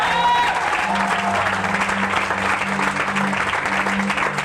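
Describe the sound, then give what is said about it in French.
A church audience applauds in acclamation during a worship service. The clapping is dense and sustained throughout, over a steady low tone, and a voice is briefly audible at the start. “Est-ce que quelqu'un peut acclamer la présence du Seigneur Donne-moi une acclamation ressuscitée, s'il te plaît.”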